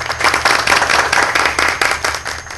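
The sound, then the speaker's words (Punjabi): Loud, steady clapping from an audience after a recited couplet, many hands beating in dense pulses throughout with no voices on top. “ਕਹਿਣਾ ਕੋਈ birthday party ਚੱਲ ਰਹੀ ਹੈ ਜੀ, ਕੀ ਤਾੜੀਆਂ ਵੱਜ ਰਹੀਆਂ ਹੈ।”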